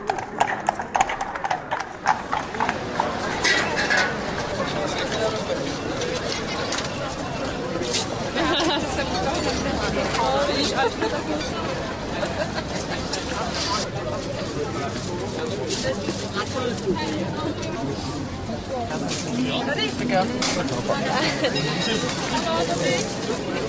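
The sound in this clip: An open-air Christmas market in the Old Town Square bustles with constant crowd chatter, while horse hooves clip-clop steadily through the mix of people talking.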